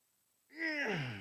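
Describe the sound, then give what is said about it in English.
A man gives one short, strained groan, imitating the effort of lifting weights. It swells up out of silence, then sinks lower in pitch as it fades. “Let me show you what I mean. That's good groaning, okay?”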